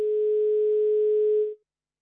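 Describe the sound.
A telephone dial tone after a failed call: one steady, unbroken tone that holds for about a second and a half, then cuts off into silence.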